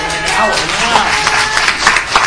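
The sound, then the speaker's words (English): Audience applause after a debate answer about releasing tax returns, a loud, dense clapping roar with a voice faintly audible beneath it. “And he walks away and gets applause.”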